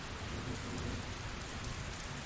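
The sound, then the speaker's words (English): Steady, heavy rain pours throughout, with a deep rolling thunder rumble from a storm that feels close underneath the constant hiss; the level stays even and no one speaks. “The rain is pretty relaxing, isn't it? I don't actually mind the thunder. It's just felt a little bit close.”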